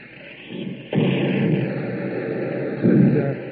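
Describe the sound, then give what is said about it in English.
Mortar fire in a military setting: a sudden heavy blast cuts in sharply and gives way to a sustained, rough roar, which swells again near the end. No voices are heard. “Why are they firing mortars here, Captain?”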